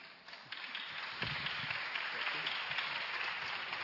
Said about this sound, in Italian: volevo lasciare spazio all'applauso per Fabio.